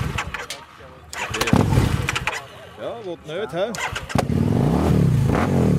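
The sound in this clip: A motorcycle engine starting: clicking cranking at first, a voice talking through the middle, then the engine catches into a loud, steady running rumble.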